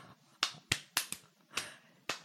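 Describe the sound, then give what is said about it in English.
Several sharp, dry hand claps in an uneven rhythm. Each is a crisp, bright smack followed by a short decay, with quiet gaps between them. “I just clapped at myself because it was that bad.”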